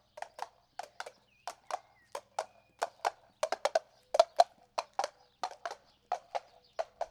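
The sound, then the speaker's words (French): Hooves of a horse pulling a cart clip-clop past in a steady, brisk rhythm: many crisp, hollow knocks, often in quick pairs, with clear gaps between them and no voices. “Hé, regardez, c'est votre père qui passe en charrette.”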